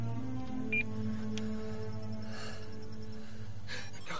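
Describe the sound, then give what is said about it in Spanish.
Brief electronic phone beeps as a number is dialled and a message is sent from a mobile phone inside a coffin. A couple of short, high tones sound over a low, sustained drone. “Guarda el mensaje marca el número y lo envía a sus captores.”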